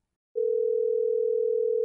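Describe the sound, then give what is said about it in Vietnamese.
A telephone ring-back tone after a number is dialed: following a brief silence, a single steady mid-pitched tone sounds loud and unbroken until the end. “Cậu gần như đứng không vững, run rẩy rút điện thoại bấm số gọi cho Doãn Chu.”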